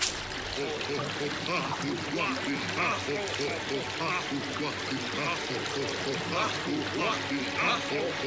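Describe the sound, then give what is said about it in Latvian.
Bubbles: a dense, continuous bubbling and gurgling, like water churning, steady and fairly loud for the whole stretch. “Burbuļi!”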